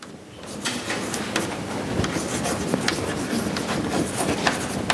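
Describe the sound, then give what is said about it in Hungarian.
Handwriting strokes as brackets are written during a math lesson on sequences: many short, dry scratching strokes in an uneven rhythm, fairly faint and steady, with no talk. “zárójelbe írom”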